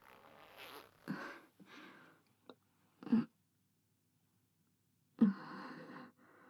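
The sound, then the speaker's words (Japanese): Clothing zipper being opened, heard as a few short rasping bursts with quiet gaps between them. The sound is faint overall, with no speech. “ファスナーとかそういうの私やります。”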